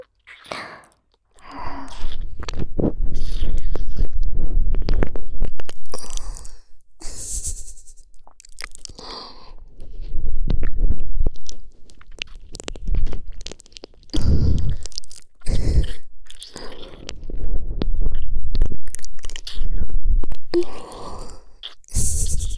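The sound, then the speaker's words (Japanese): Wet mouth sounds of fingers being licked and swallowing: many irregular slurps, smacks and crunchy bursts, fairly loud and close, broken by short pauses, with no talk. “お姉さんの指の先端から付け根まで、一本一本、丁寧に舐めとって、ごっくん、するの。”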